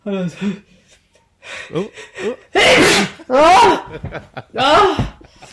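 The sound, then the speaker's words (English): A person sneezing, with short gasping and vocal sounds around it and voices nearby; the sneeze comes as a loud, sharp burst among the breathy noises. “The sneeze made me forget what I was talking about.”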